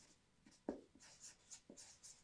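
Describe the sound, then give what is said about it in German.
Faint scratchy strokes of writing words on a board during a sermon. Several short, separate scrapes and taps come at an uneven pace against a quiet background. “und ich schreibe hier Gott dieser Welt”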